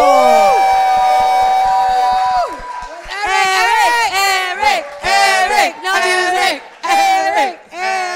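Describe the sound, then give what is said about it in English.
An audience welcoming a performer at a live show: loud, sustained cheering and whooping with horn-like blasts, scattered claps early on, then repeated surging bursts of shouting with brief dips between them. “Please put your hands together for Eric Galindo.”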